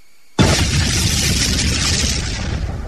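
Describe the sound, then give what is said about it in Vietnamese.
Firecrackers exploding on both sides of a mountain: a sudden loud burst that sets off a dense, continuous roar of blasts. It holds steady for a couple of seconds with no voices. “tiếng pháo ở hai bên núi đùng đùng nổ lên bất tuyệt.”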